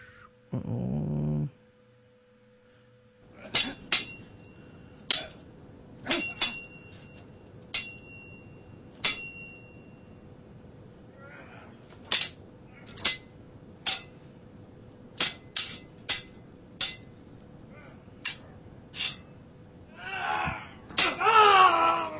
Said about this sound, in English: Sword ratchet this time. Where's my sword sound effects? Swords.